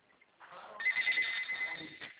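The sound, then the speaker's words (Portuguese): A mobile phone rings with a steady, high electronic ringtone, heard thin and fairly faint. It swells slightly and then holds at a constant pitch. “Desculpa que o meu telefone tá tocando aqui.”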